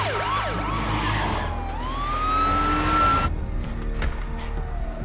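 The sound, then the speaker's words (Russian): Police car sirens wail on their way to a bank, their rising and falling tones sweeping loudly and continuously over a low rumble, until the wail cuts out partway through and leaves a faint steady tone. “Полицейские автомобили направились к банку.”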